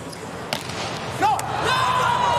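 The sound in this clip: A volleyball serve is struck by a middle blocker during a match involving the US team. A couple of sharp smacks sit over steady, loud crowd noise.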